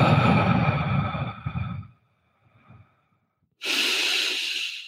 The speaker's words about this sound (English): Let's take a deep breath together. We're going to do five deep breaths.